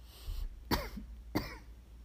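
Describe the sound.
Two sharp coughs from a throat irritated by incense smoke during meditation, each a short raspy burst about half a second apart, heard alone over a quiet background.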